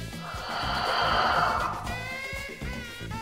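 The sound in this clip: A deep breath drawn in and then let out during a guided positive-affirmation exercise. It is a soft, breathy rush that swells and fades, followed by a second, gentler airy stretch, with no talking.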